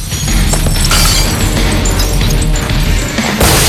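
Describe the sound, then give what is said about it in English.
Glass jars overhead are bashed and smashed, showering the floor with shards. Loud, dense crashing and shattering runs throughout without a break, with sharper bright bursts near the start and again at the very end. “The bald journalist smashes as many of the jars above him as he can. The group are showered with glassy shards”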